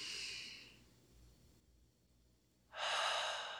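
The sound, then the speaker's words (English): A person takes a deep breath during a guided exercise. An airy breath in is followed by a quiet pause, then a louder rushing exhale. No one talks. “So just with me, take a deep breath.”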